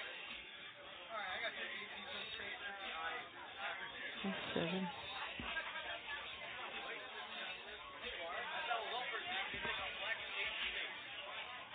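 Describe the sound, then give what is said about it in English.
Background chatter from a call center or office work area, picked up by a pocket-dialed phone and left as a voicemail. Overlapping voices blur into a steady murmur, narrow and muffled like a phone line, with a few soft knocks. “So that was nice to have a random pocket dial in, and it sounded like, I don't know, a call center, work area”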